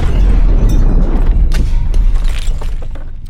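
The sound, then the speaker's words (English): A machine explodes with a loud, deep booming roar and crackling, crashing debris noise that stays dense the whole time before easing slightly toward the end. “It exploded! It wasn't supposed to do that!”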